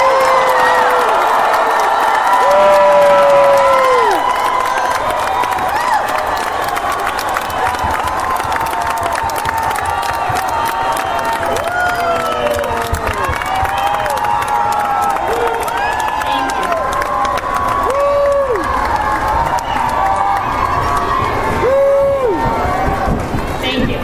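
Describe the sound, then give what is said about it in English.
A graduation crowd cheers and applauds for the class of 2015. Loud, sustained clapping mixes with shouts and high whoops, and voices carry over the noise throughout. “we are going to take a moment right now to get all of our cheers and applause out of the way. So let's give it up for the class of 2015.”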